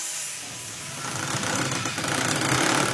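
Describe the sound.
Mechanical drone of a sandwich machine pressing plywood-like desk board material, a dense steady roar with a faint knocking pulse that grows slightly louder partway through.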